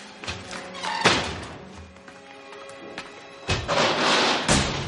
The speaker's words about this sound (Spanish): Cierra las puertas.